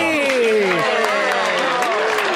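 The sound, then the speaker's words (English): Loud crowd applause and cheering greeting a guest as he joins the evening, a dense steady roar of clapping with raised voices carried over it throughout. “Wow, you're really giving yourself a big applause.”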